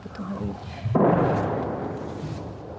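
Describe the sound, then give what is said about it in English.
An artillery shell explodes nearby in wartime Ukraine: one sharp, loud boom with a rumbling decay, just after a brief voice. “She doesn't even flinch when a shell explodes close by.”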